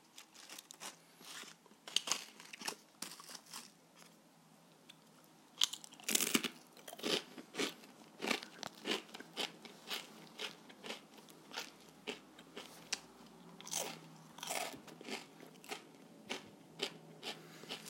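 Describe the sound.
Crunchy chewing of Hokkaido sweet-shrimp, salt-flavoured shrimp crackers broken into small pieces. Many crisp, crackling bites come in an irregular rhythm, quiet overall with louder bursts and no talk.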